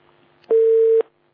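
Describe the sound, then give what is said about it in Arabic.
A telephone busy tone after a dropped call: a single steady, mid-pitched beep lasting about half a second, heard alone over faint background hiss. “اتقطع اتصال”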